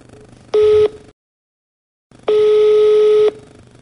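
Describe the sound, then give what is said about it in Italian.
A phone line rings while a call is placed: one short steady beep, a silent pause, then a longer beep at the same pitch. The tone is loud and even, with no voices. “adesso provo a chiamare Claudia Kais.”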